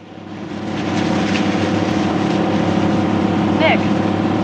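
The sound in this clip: A speedboat roars across the water, its engine swelling over the first second and then holding a loud, steady drone with rushing water noise.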